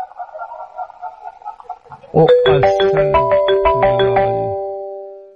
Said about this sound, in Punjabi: ਪਹਿਲਾਂ ਟੈਲੀਫੋਨ ਆਪਾਂ ਸੁਣ ਲਈ, ਹੈਲੋ ਹੈਲੋ